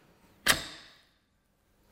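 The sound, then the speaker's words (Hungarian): A small projectile is launched in an arched shot during a physics lecture demonstration. One sharp, snapping launch burst rings with a tail that fades over about half a second. A faint click follows near the end. “Ez egy szép, íves lövés volt.”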